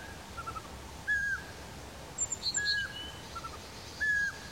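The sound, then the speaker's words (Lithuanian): Eurasian pygmy owl calling in the Nemunas delta: faint, short whistled notes repeated about every one and a half seconds, with a few fainter, higher chirps in between. “Žvirblinė pelėda.”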